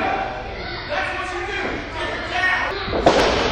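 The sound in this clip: A wrestler is body-slammed onto the mat in a pro wrestling match, a heavy thud landing near the end beneath continuous commentary and crowd noise.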